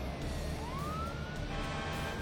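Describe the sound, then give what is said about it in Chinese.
A fire engine siren arrives at a hospital as a single wail that climbs in pitch and then holds steady over a constant low engine rumble. “几分钟后，消防车抵达了红武医院，医院门前停着数辆警车和救护车”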